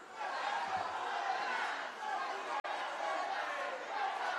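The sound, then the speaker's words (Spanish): An audience in a hall cheers and clamours as the president-elect walks to the lectern. Many voices blend into a steady, dense din with scattered shouts, holding level throughout apart from a momentary dropout. “El público reacciona con mucha algarabía en el recinto.”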